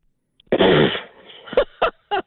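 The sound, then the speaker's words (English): A blown raspberry, a bemused snort: a loud, buzzing, half-second splutter, followed by three short, sharp breathy bursts. “That was what I'd call a bemused snort. Yeah. Yeah, the old raspberry.”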